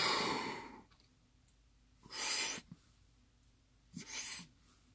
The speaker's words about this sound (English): So I took a big breath as big as I could take. Then my lungs kind of expanded. Then I took another breath, even just a little bit more. And then my last breath, I hardly got anything in.